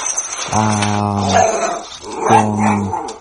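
Video game dog giving two drawn-out, low, buzzy calls with strong harmonics, loud and alone, separated by a short gap.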